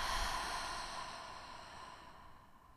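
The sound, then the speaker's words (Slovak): A single long, soft breath from a person doing a guided breathing exercise: a faint, airy exhale that fades steadily over about three seconds, with no talk. “Nádych a výdych.”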